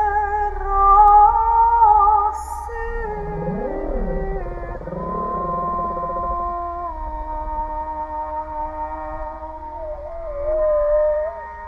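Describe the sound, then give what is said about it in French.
Humpback whale calls picked up by a hydrophone: long, drawn-out tonal moans rich in harmonics, with sweeping upward and downward swoops midway, over a steady low underwater hum. “Et au même moment, la réponse d'une baleine à bosse captée dans l'hydrophone.”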